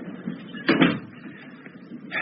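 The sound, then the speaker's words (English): A door being closed, heard as a single muffled thud near the middle, with faint rustling before and after and a soft knock at the end. “Come in and close the door”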